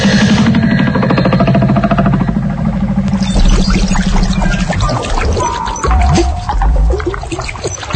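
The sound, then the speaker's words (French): Water pouring into a sinking boat: a loud, continuous churning rush with gurgles and splashes throughout. “On coule, docteur, on est en train de couler”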